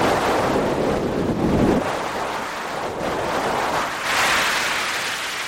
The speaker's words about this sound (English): the speed of helium as it was moving by the satellite, I was thinking that this would translate directly to something that might be similar to the sound of wind blowing here on Earth.